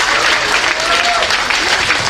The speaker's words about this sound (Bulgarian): аплодисменти за господин Цветомир Паунов